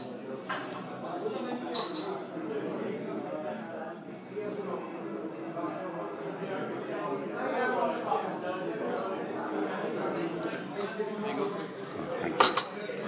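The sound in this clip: Dishes and cutlery clink in a golf club bar over a steady murmur of people talking. Sharp clinks stand out near the start, and one loud clink comes near the end.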